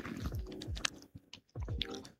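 Wet, crunchy biting and chewing of a juicy lemon, quiet and close, a steady run of mouth noises that pauses briefly mid-clip before resuming.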